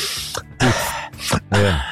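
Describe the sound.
A person imitates someone noisily sucking in air and breathing deeply while chewing. The voice makes several breathy, hissing bursts, some with a rough voiced edge, separated by short pauses.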